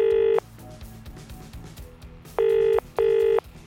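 A telephone ringback tone sounds as a radio show calls a listener: one short buzzing burst, a pause, then a quick pair of the same low electronic tones.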